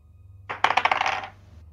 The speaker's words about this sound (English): Real dice.